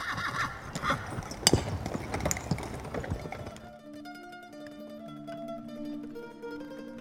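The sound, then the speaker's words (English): Hooves clip-clop and a horse whinnies as a horse-drawn chariot sets off, a dense, busy burst of hoof and harness noise for the first few seconds, then giving way to quieter steady tones. “They're here to escort you to my chariot. Where are we going? For a little ride.”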